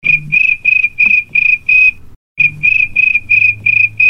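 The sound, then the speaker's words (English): A cricket chirping sound effect plays back as a steady train of high, evenly spaced chirps over a low hum, broken once by a brief pause midway. “The funny thing is, I don't need a sound effect for crickets because I have a sound effect from Norg.”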